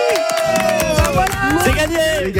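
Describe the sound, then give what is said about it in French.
Children shouting together as loudly as possible on a count of three during a prize contest, a loud, sustained roar of many high voices that holds for the whole moment. “Les enfants, vous criez ici, d'accord, le plus fort possible. À trois ensemble, okay.”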